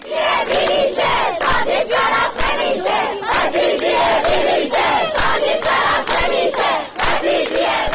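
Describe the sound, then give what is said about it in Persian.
Students chant at a protest rally at Razi University in Kermanshah. The loud crowd voices rise and fall in many rhythmic bursts with no pause. “صدای دانشجویان دانشگاه که رازی کرمانشاه.”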